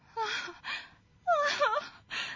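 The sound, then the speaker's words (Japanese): A voice imitates the crying of a field mouse mother with breathy, broken wails and moans. The wavering cries come in a few short bursts separated by brief gaps. “すると野ネズミのお母さんは泣き出してしまいました。”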